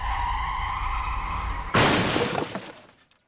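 A car driving slightly over the speed limit skids as it turns a corner sharply: a sustained high squeal, then a sudden loud crash with shattering glass that rattles and fades into silence.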